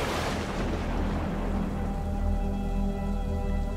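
Steady rainfall, a dense, even hiss with a low wash beneath it, holding at a constant level throughout.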